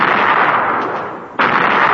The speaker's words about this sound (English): At 10:39 p.m., when the Maddox and C. Turner Joy radars indicated one enemy vessel had closed to within 7,000 yards, the C. Turner Joy was ordered to open fire.